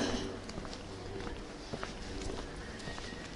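Footsteps of a tour group on the move, a steady patter of many steps running continuously beneath a constant wash of background noise.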